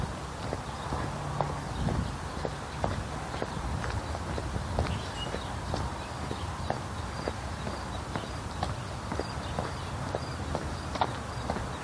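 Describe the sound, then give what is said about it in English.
Footfalls of a couple of dogs out on a morning run: a steady, fast stream of light, rhythmic clicks and taps over a constant background hiss, with no talk. “A couple happy dogs. Out for a morning run.”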